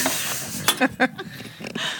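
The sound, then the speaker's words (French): Butter is spread over a crêpe on a hot griddle: a few soft scraping and clinking strokes of the utensil over a steady low hiss, moderately loud and without talk. “Ah, du beurre à la surface. Eh oui. Là, vous lustrez la crêpe.”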